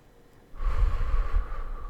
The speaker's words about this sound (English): Take some deep breaths in